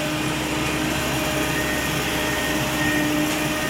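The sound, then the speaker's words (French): Steady mechanical roar of a windrow turner driving over a compost windrow, shaking and turning it to aerate bacteria that break down hydrocarbons. The drone is loud and continuous, with faint sustained tonal whines and no talk. “on passe à côté d'une machine qui passe par-dessus l'andin, qui le secoue, qui le retourne un petit peu, presque comme c'était dans un champ, quoi. C'est ça que vous entendez maintenant.”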